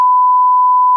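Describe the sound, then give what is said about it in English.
A steady, unbroken single-pitch electronic tone, a sound effect standing for brainwaves listening to conventional radio, holds loud and level for about a second, alone and without variation. “This is the sound of someone's brainwaves listening to conventional radio.”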